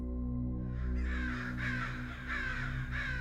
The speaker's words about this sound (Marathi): आणि अचानक कावळ्यांचा आवाज सुरू झाला